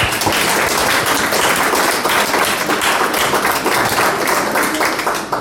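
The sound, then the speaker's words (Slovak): Dense applause fills an award presentation, with many hands clapping in a steady, loud wash from start to finish and no clear pauses. “Veľký aplauz”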